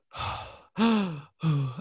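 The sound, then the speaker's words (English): A voice imitates a space video game character's tight, strained breathing in zero gravity. It makes three short, rough, breathy gasps, and the last two carry a low, groaning vocal tone. “suddenly the breathing gets really tight and you can hear Shepard breathing going,”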